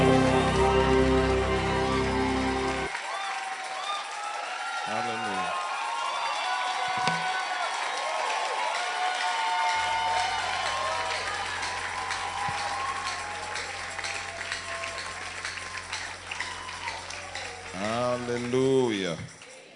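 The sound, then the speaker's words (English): An audience applauds and cheers to welcome a speaker at a church gathering. The clapping is sustained and loud, continuing for about twenty seconds, with scattered shouts and brief tonal passages rising above the crowd noise near the start and end. “Ladies and gentlemen, put your hands together as you make welcome to be a blessing to God's people, Apostle Arome Osai.”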